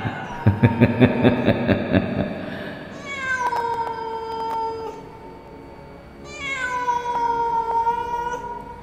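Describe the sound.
Two long, wailing cat meows, harmonic and drawn out, rise out of a burst of rapid rhythmic pulsing at the start. The cries are loud and heard alone, with no talk.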